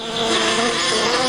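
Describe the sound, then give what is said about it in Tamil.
Bees buzz in flight around hive boxes stacked in a garden. A steady, dense drone holds at an even level throughout, with no talk. “அது அது தேனி பறக்கிற சத்தம் போல இருக்குதே.”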